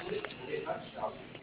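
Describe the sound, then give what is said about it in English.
An answering machine beep sounds after the outgoing greeting, before a message is left: faint, low talk gives way to one short, loud, steady electronic tone at the very end. “Please leave your name and number and a brief message after the beep.”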